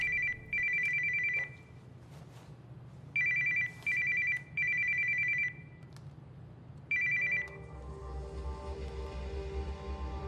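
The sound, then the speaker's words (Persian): Telephone bell ringing in several sharp, bright bursts of uneven length, separated by short gaps, before a steady low rumble takes over near the end. “چهار سه دو بهت زنگ میزنن، تلفنو جواب بده.”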